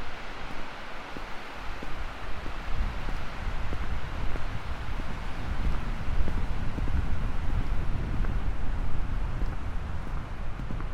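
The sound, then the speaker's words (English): Strong wind buffeting a microphone outdoors while walking down a tree-lined street, a continuous low roaring rumble with gusty fluctuations and no talk. “Wind blowing hard against my face.”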